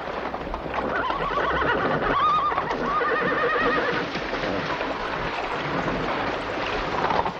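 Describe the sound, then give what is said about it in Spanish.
A horse whinnies as it stands in the middle of a river it is crossing. A high, wavering neigh rises above a steady wash of water and a few splashing hoof sounds, and no voices are heard. “Todos terminan de cruzar, excepto el caballo de la señora Lowe, el cual se detiene en medio del río y muestra una actitud rezagada.”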